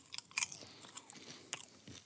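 Popcorn being chewed in a mouth: several sharp, crunchy bites and crackles at irregular intervals, faint and on their own, with no talk.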